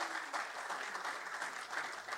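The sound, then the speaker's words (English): Faint, steady applause from many hands clapping together, a continuous patter that runs through the whole stretch without a clear break. “I'm trying to count how many claps I got there.”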